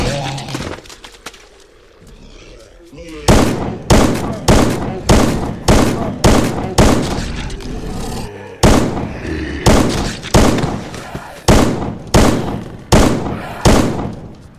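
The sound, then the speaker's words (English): Burst-fire shots from a video game weapon, many short, sharp volleys repeating in a steady rhythm. They follow a quieter opening of about three seconds, with brief gaps between groups. “Burst fire. Oh, it's got burst fire. Problem is, that goes through much more ammo.”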